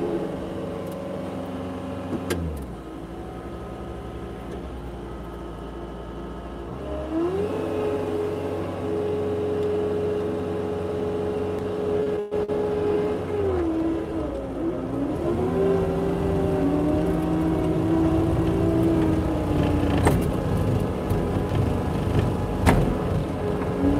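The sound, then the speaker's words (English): A big snow plow's engine drones steadily as it drives past. Its pitch shifts up and down in a few slow sweeps, and the rumble grows slightly louder toward the end. No voices are heard. “Big snow plow coming through. Get out of his way.”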